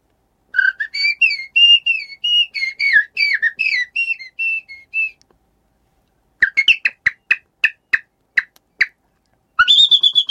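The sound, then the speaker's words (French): A person whistles an imitation of a male common blackbird, first a fluty, warbling song of many quick varied notes, then after a pause a run of short, sharp contact calls, ending with another brief burst of whistled notes. “mon oiseau fétiche, c'est l'oiseau, le premier oiseau que j'ai imité aussi, et c'est un peu l'oiseau que mon père imitait, du coup c'est le premier oiseau que j'ai entendu, et c'est le merle noir.”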